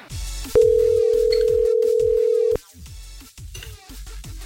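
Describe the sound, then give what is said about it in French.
A phone call ringing out: one long, steady electronic tone holding for about two seconds, standing out clearly from the quieter, muffled sounds before and after it. “Allez hop, on y va, on appelle.”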